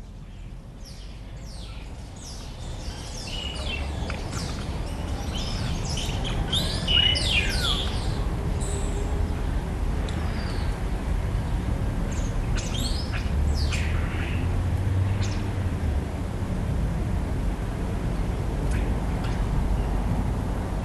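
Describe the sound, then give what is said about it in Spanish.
Night birds in a city chirping, tweeting and squawking in many quick, high calls over a steady low urban rumble throughout. “pájaros nocturnos de ciudad y otros sonidos”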